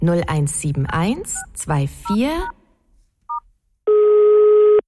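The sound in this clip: Touch-tone beeps from a telephone number being dialed: a few short dual-pitched tones, the first ones under a speaking voice, then a lone beep after the talk stops, followed by a longer, steady two-tone sound.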